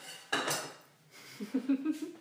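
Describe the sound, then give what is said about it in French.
A saucepan is put away among dishes: a clattering knock of metal, then a quick string of bright ringing clinks of crockery and cookware. “La casserole. Le reste, tu peux difficilement le ranger alors que c'est sale. On va la ranger là.”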